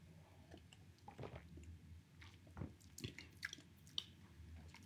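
Soft wet chewing and squishing as someone tastes an orange-flavoured creamy food, with faint, irregular smacks and clicks over a quiet background.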